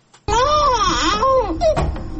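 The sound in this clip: A malnourished child wails loudly on its own in a long, strained cry with wavering pitch, then breaks into shorter, broken cries.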